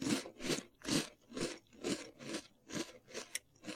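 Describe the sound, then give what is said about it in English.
Someone eats a crunchy, light, flaky Original Snack Cracker. Crisp crunching chews come in a steady, even rhythm, close and distinct, with no talking. “Anyway, they're called Original Snack Crackers. Light tasting and flaky. Great for snacking or entertaining. I'm going to eat one now.”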